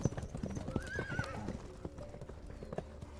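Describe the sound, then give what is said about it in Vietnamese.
Horse hooves clip-clop in a steady trotting rhythm throughout, with many sharp hoofbeats. A horse whinnies briefly early on, over the hoof sounds. “Cương thi bắt đầu di chuyển dưới vó ngựa của Minh Thành.”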